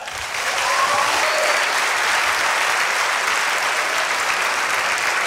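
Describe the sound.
Audience applause welcoming a celebrated film actress as a guest onto a stage: clapping swells in over the first second into a loud, dense, unbroken roar of many hands that holds steady to the end.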